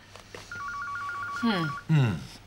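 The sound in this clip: Telephone rings with a rapid, high electronic trill lasting just over a second, then two short vocal sounds follow.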